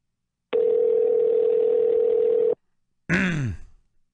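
A telephone ringback tone sounds as a call to a press office rings through to voicemail: one steady, unbroken, mid-pitched tone lasting about two seconds. After a short silence, a brief, sharper burst of sound follows.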